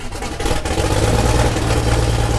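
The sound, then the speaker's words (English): Steady piston engine drone from a nine-seat twin-engine Cessna 402 starting and taxiing in front of an airport maintenance hangar. A continuous low, rumbling hum with a buzzing edge holds at an even loudness throughout, with no voices. “starts and taxis a 9-seater twin-engine Cessna in front of Cape Air's maintenance hangar at Barnstable Municipal Airport”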